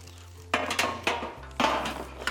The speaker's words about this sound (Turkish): Biz hemen fırın tepsimizi alalım.